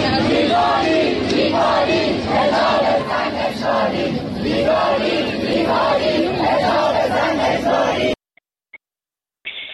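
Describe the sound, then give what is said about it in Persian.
Allameh Tabatabai University students chant slogans in unison at a protest march and rally. Loud, rhythmic crowd voices run for about eight seconds, then cut off abruptly to near silence broken by a few faint clicks. “دانشگاه علامه طباطبایی، دانشجویان این دانشگاه هم بیرون اومدن، پلاکارد دستشون بود، راهپیمایی و تجمع کردند و شعار سر دادن. صدای دانشجویان علامه طباطبایی رو بشنویم.”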